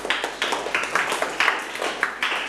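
Classroom applause for a student, a group clapping in regular bursts of roughly three per second, moderately loud and steady for the whole moment.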